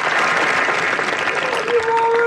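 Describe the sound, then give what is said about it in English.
Loud crowd applause in a continuous ovation, a dense even wash of clapping. A voice briefly rises over it near the end. “And then he got some love from the crowd at the end of that ovation.”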